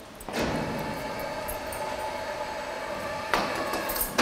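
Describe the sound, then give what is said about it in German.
A sliding partition wall in an animal cage is closed, making a continuous rolling, rattling rumble between two sharp clanks, one at the start and one near the end. “Die Zwischenwand wird geschlossen”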